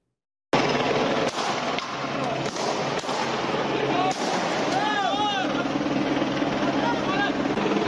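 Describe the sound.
Armed special forces open fire on protesters in Marseille: several sharp cracks of gunfire break through continuous loud crowd noise, with voices shouting throughout.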